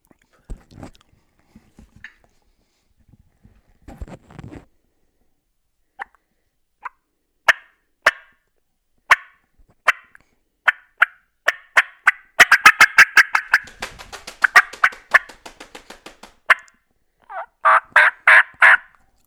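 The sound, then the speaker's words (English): A turkey call imitates a hen's fly-down cackle with yelps. Sparse, sharp yelps come first, then a rapid, irregular burst of cackling notes, and a few more clear yelps close it out, all with no talk. “you let out a couple hard yelps to let him know you're there right before fly down, and then now you're actually laying the fly down cackle on him.”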